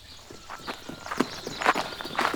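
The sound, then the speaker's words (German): Careful footsteps of three walkers returning while carrying fresh spring water: a few soft, uneven steps in a slow, cautious rhythm, fairly faint, with no voices. “Mit frischem Quellwasser gehen Rosa, Toni und Gusti ganz vorsichtig zurück zu Tami.”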